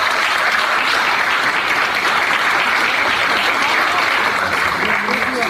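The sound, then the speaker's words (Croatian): An audience applauds at an evening folklore festival featuring folk dance groups from several countries, with loud, dense, steady clapping that continues unbroken throughout. “Molim jedan veliki aplauz za sve njih.”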